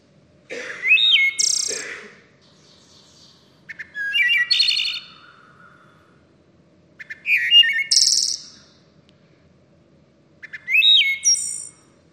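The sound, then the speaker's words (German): A wood thrush sings four separate phrases spaced a few seconds apart, each opening with soft short notes and ending in a bright, high flutelike trill over near silence. “Und noch die Walddrossel.”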